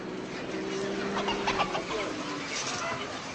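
Chickens cluck and murmur inside a dark poultry house, a dense, steady chorus of soft calls over constant background noise, with no single bird standing out.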